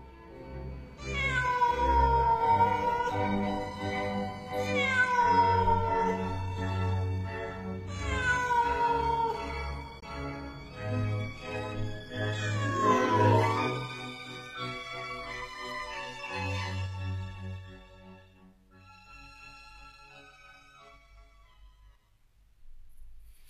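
A black cat standing on a wall, staring into a house, gives a series of long, mournful yowls. Several drawn-out harmonic wails fall in pitch, and the cries grow quieter toward the end.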